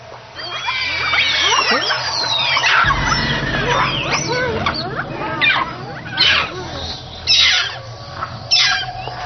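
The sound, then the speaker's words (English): Monkeys give alarm calls warning of a large venomous snake in China: many rapid, high-pitched chirps and squeaky sweeps overlap densely. A low rumble joins from about three seconds, and the calls thin into a few separate bursts later. “They use this specific alarm call to warn each other whenever a snake is spotted.”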